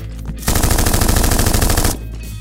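Loud automatic gunfire: a rapid, continuous burst of shots lasting about a second and a half, cutting off abruptly.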